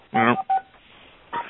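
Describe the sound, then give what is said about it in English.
Keypad tones from a home telephone being dialed: a few short, clean electronic beeps separated by brief gaps, moderately loud with a faint hiss between them. “Let me pick up my home phone and dial this and see what happens.”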